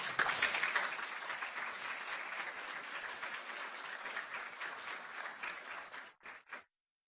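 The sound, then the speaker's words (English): Applause greets a guest introduced at an evening university law lecture. Steady, even clapping holds for about six seconds, then thins to a couple of last claps before silence. “Please welcome Mrs. Louise Batchelder.”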